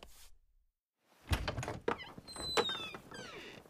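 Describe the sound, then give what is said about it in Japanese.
A window slides open with a solid thunk, followed by scraping, rattling movement and a few faint high squeaks, after a brief hiss and a moment of quiet. “今日は窓を開けることを許そう。”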